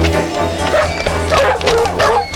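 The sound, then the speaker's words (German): Dogs set loose bark and yip in a rapid, continuous burst, with many overlapping yaps and bow-wow barks holding at an even, loud level throughout. “lass die Hunde los!”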